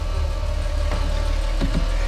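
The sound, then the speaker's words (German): A parked car's engine idles steadily beside a sagging wire-mesh fence, a continuous low rumble with a couple of faint clicks over it. “Als Mrs. Logsmith ihren Wagen vor dem eingesunkenen Maschendrahtzaun parkte, war es bereits dunkel.”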